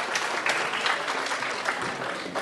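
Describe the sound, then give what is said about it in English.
Audience applause at a live event as a volunteer is welcomed to the stage: dense, steady clapping from many hands that holds at an even level throughout, with no talk. “Give him a hand.”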